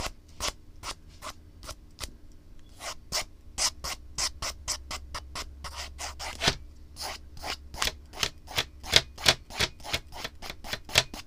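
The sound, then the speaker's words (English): A pen or pencil draws on paper in many quick, scratchy strokes. The rhythm is irregular, with brief pauses, and the strokes grow louder and denser toward the end. No voices are heard. “Sorry, I just kind of like drawing a little bit.”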